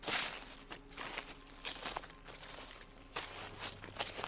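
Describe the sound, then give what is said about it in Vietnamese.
Footsteps crunching over dry leaves in a garden just outside a bedroom, a faint series of soft, crackling rustles spaced irregularly, heard alone without talk. “Đầu tiên là tiếng bước chân đi dẫm lên lá khô ở bên khu vườn ngay bên ngoài phòng ngủ của tôi.”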